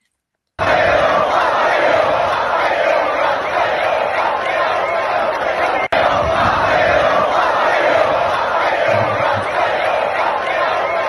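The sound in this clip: A crowd at Monza cheers loudly for Matteo Bobbi after the race finish, a dense, steady roar of shouting voices that runs unbroken for about ten seconds apart from one brief dip midway.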